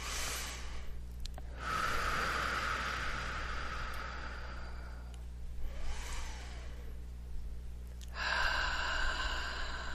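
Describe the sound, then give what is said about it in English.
Slow, deep conscious breathing in a guided breathing exercise: a few long, airy inhales and exhales, each stretching over several seconds, fairly loud and steady, with no talking. “So let's take some nice conscious breaths.”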